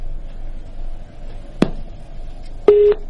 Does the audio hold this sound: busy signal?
yes